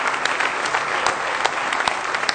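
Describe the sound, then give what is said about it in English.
A church audience claps their hands in praise, a dense, loud patter of many sharp claps continuing throughout. “Give the Lord one more good hand clap of praise if you love him this morning.”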